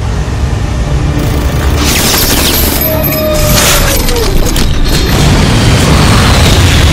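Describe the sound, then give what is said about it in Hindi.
Missile explosions roar as a dense, continuous rumble of booms, loud throughout, with a faint whistling tone sliding through the middle. “मिसाइलों से हमारा रास्ता cut गया है, शायद वो तबाह हो गए।”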